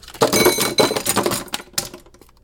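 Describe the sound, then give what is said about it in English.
Ice cubes tipped out of a tray into a sink clatter in a loud burst of hard clinks and knocks. A few sparser clicks follow, then the sound fades to quiet. “I could be really boring and take this little ice cube thingy out and make all the cubes fall out into the sink just because I can.”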